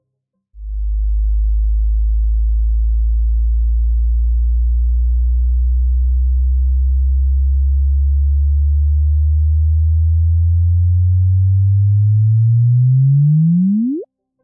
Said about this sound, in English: the actual sound, in heavy air quotes, of 2 neutron stars colliding. Listen to this.